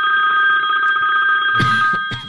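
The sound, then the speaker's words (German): A modern phone ringtone sounds loud and alone as a rapid, pulsing high electronic ring that repeats steadily, with a few brief knocks near the end. “Ich wusste gar nicht, dass du so einen modernen Klingelton hast.”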